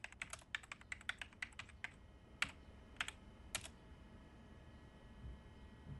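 Typing on a computer keyboard: a quick run of many crisp key clicks, then a few slower, separate keystrokes, with quiet moments between them and no voices.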